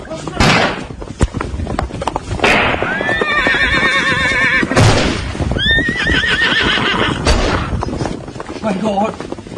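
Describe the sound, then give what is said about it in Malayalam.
Horses whinny while fleeing soldiers, one horse wounded by gunfire: two long, shrill, wavering neighs ring out over a continuous clatter of hoofbeats and scattered sharp knocks. “എന്റെ പ്രിയ കുതിരയ്ക്ക് വെടിയേറ്റു”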